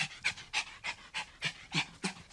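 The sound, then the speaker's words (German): Overheated dog panting with its tongue out to cool down: many quick, breathy huffs in an even, steady rhythm, faint and without voices. “Hunde können nicht schwitzen, um sich abzukühlen, weil sie keine Schweißdrüsen haben. Wenn ihnen zu warm wird, strecken sie deshalb einfach die Zunge raus und hecheln.”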